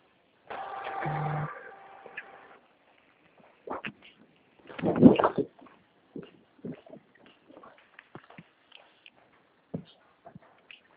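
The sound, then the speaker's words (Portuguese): A printer runs a document, starting with a steady mechanical whir, then a louder grinding burst, and ending with scattered light clicks and rattles. “imprimindo aqui, eu já te mando”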